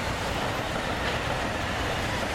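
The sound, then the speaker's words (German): A passing train makes a loud, steady rumbling and rushing roar with a faint rolling rhythm of wheels, heard alone without voices. “Es ist übrigens 520, wie der vorbeifahrende Zug gerade übertönt hat.”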